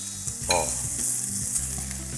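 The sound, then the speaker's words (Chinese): Hot pot chili sauce and bean paste sizzle as they are stir-fried, giving a loud, steady frying hiss with scraping stirs throughout and no talking. “把它炒香哈，炒香。”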